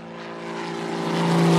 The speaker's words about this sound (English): That sound was the sound of us not landing the plane this episode, okay?